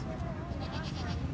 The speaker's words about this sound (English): Hello, goat.